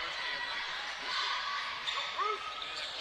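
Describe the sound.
A basketball is dribbled on a court during a game, its bounces faint beneath ongoing play-by-play commentary and crowd noise.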